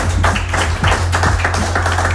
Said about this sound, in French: Et on peut applaudir les deux candidats.